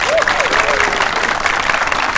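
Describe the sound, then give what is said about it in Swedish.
A crowd claps in steady, continuous applause at a car event's prize-giving, a dense patter of many hands holding at an even loudness from start to finish. “En applåd”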